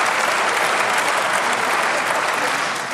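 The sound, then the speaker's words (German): Applause from the audience in a parliamentary debate in the Bundestag, a dense, steady clatter of many hands clapping at uniform loudness throughout, with no speech over it. “Applaus”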